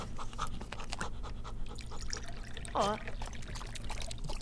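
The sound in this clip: Still water poured for a dog, a faint, soft trickling pour over a low, steady hum.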